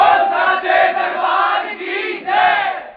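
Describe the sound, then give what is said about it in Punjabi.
An audience loudly shouting the jaikara devotional cry at a gathering singing the praises of the Mother Goddess, many voices blending into a sustained, ringing roar that swells twice. “ਇੱਕ ਵਾਰ ਜ਼ੋਰਦਾਰ ਜੈਕਾਰੇ ਨਾਲ ਇਜਾਜ਼ਤ ਦਿਓ ਜੈਕਾਰਾ ਉੱਚੇ ਭਵਨਾਂ ਵਾਲੀ ਦਾ”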